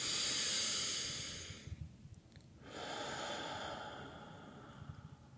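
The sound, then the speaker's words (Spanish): Breath drawn in during a breathing exercise after holding the breath: a loud, airy hiss of inhalation, a short hush, then a second long, steady rush of breath. “aguantas así sin oxígeno, sin nada, vacío y respiras.”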